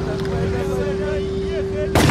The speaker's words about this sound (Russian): Немец осторожно берет винтовку и направляет на Митяя, все еще сидящего у фонтана.